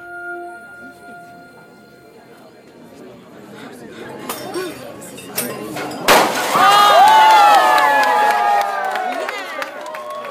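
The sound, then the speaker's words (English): A body strikes and shatters a large sheet of glass suspended in scaffolding high above an outdoor terrace. A few sharp cracks lead to one loud crash, then bright tinkling and clinking of falling shards over a murmuring crowd. “body striking and shattering a great sheet of glass suspended in scaffolding”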